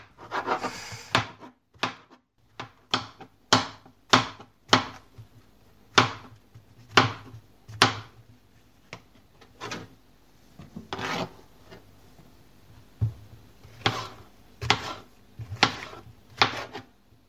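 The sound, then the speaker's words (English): Knife chopping field mushrooms on a board: many sharp, crisp cuts in an uneven rhythm, some in quick pairs and others spaced by short pauses, with no talk. “So here's just the last half of the field mushrooms getting chopped.”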